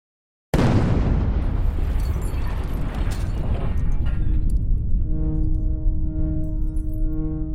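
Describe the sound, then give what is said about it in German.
A massive chemical plant explosion of 4,500 tonnes of ammonium nitrate bursts in with a sudden, loud, deep boom that rolls into a long, sustained rumble, with steady tones emerging in the final seconds. “Eine Explosion, wie sie Deutschland noch nicht erlebt hat. Im September 1921 explodieren in einem BASF-Werk in der Bayerischen Pfalz 4.500 Tonnen Ammoniumnitrat.”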